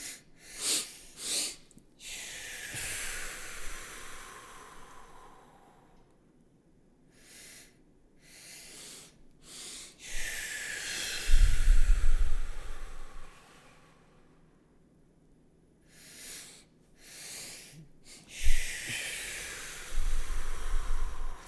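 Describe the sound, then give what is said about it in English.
Breathing exercise in three rounds, each a pair of quick, sharp inhales followed by a long, slow, hissing exhale. The breaths are clearly audible, with no talk. “So we're going to go a double inhale and then a slow exhale. We're going to do 3 of them.”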